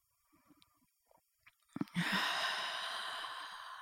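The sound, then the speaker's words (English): A deep guided breath: a few faint stirrings, then a sharp audible inhale followed by a long, steady, breathy exhale that trails off slowly, fairly quiet and alone. “And again, deep breath in. And exhale. And one more time, deep breath in.”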